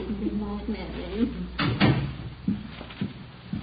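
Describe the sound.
A door opening and closing as a visitor is shown out: two sharp knocking clatters close together midway, with people talking before and after.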